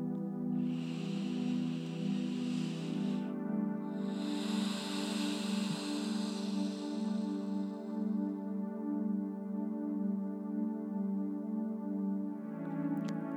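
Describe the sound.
A slow, soft breathing cycle during a guided breathing exercise, two long airy rushes of breath drifting over a steady, sustained harmonic drone that holds throughout.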